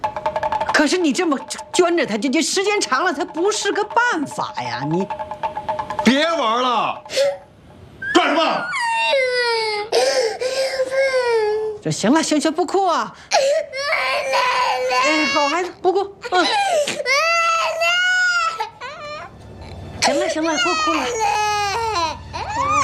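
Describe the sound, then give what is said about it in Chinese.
A child cries loudly in long wailing bursts broken by short pauses, with whimpering sobs between, while adult voices talk over the crying. “行，不哭啊！好孩子，不哭。行了，不哭了。不哭。”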